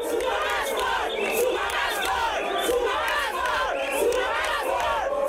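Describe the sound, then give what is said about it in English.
A large crowd of workers sings and chants anti-Zuma slogans at a May Day rally in Bloemfontein, Free State, a loud, continuous mass of voices with no pauses. “a section cheered him. But a larger group sang and chanted anti-Zuma slogans.”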